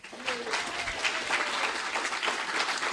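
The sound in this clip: Audience applause welcoming a speaker to the stage at an evening event, a steady, dense wash of clapping that lasts throughout, with a few voices mixed in.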